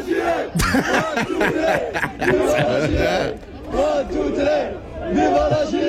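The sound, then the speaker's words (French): Protest crowd chanting in Montréal-Nord at a demonstration over police station 39: many voices shout a rhythmic, repeated slogan in several loud cycles, with crowd chatter between the chants. “C'est Viva l'Algérie. OK. Dans une manifestation pour le poste 39 à Montréal-Nord.”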